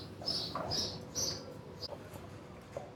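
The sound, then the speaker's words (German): Birds squawking overhead while being fed: a few high, sharp chirps come early, then fainter calls over a low background murmur. “Über mir bölken jetzt gerade die Vögel, die werden gerade gefüttert da oben.”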